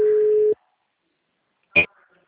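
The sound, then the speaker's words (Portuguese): A telephone call rings out, with one steady low tone lasting about half a second, then a pause and a brief click. “Estou ligando aqui para ela.”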